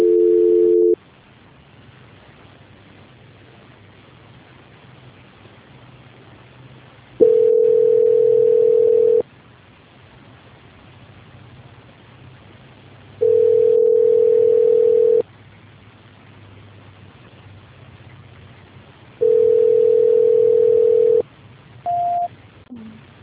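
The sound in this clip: Telephone line tone during a failed call transfer: a steady low-pitched tone sounds in repeated bursts of about two seconds, separated by longer stretches of faint line hiss, ending with a brief higher beep.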